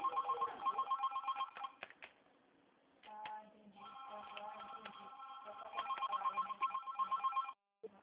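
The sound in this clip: A telephone rings in repeated trilling electronic bursts, steady and moderately loud, pausing briefly midway before ringing on again and cutting off at the end.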